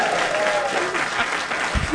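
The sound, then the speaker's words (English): Audience applause at a live trivia game show that ends in a tie: thick, steady clapping from many hands, even in loudness from start to finish. “give a nice hand.”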